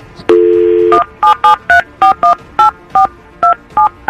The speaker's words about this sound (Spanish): Y ya tengo el número, ya lo consiguió y le vamos a marcar a ver qué descubrimos.